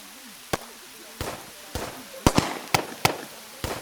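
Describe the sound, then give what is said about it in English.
Pistol shots from the hills, a series of sharp, loud cracks at irregular intervals, several in quick succession near the middle, with faint background noise between them. “those aren't pings. That's pistol fire.”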